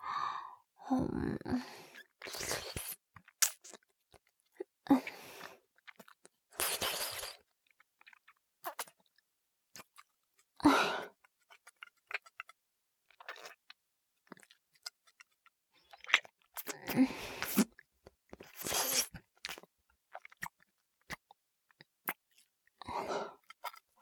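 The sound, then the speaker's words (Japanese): Slow, wet licking sounds come as many separate moist, smacking bursts with short silences between them. They are fairly quiet, and there is no talking. “特に、ねっとり、こうやって舐められるのがいいみたいだな。なら、お望み通り。”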